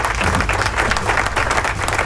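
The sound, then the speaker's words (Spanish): Sustained audience applause: a dense, loud wash of clapping that holds steady for about two seconds, with no voices on top. “¡Aplauso!”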